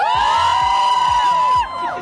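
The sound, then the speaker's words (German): Front-row fans scream and cheer at a sunny outdoor concert before the artist comes on, a sustained shrill wall of shrieks with regular low thumps underneath, dropping in loudness near the end. “Aber die erste Reihe klebt schon auf der Bühne. Erste Reihe, schreit mal.”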